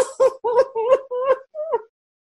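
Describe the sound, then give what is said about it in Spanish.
A man sobs in a dramatic scene: about six whimpering, voiced sobs in a halting rhythm, each wavering in pitch, with a short pause between them and no other sounds. “estaremos de acuerdo en que no deberías llorar así”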